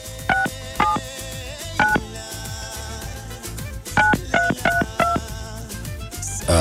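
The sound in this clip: Telephone keypad dialing tones as someone places a call, a series of short, sharp dual-tone beeps in an uneven rhythm over music.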